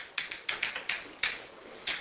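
Writing on a board during a physics lecture, a string of several sharp, quick taps and short scratchy strokes in an uneven rhythm, heard alone without talk.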